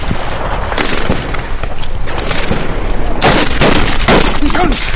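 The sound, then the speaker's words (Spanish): Gunfire in a firefight from a war film soundtrack: dense, loud, continuous volleys of rapid shots and sharp bangs overlapping without pause for the whole five seconds. “En medio del tiroteo, Micael continuó disparando mientras Klaus se lleva las arrastras para intentar ponerlo a cubierto.”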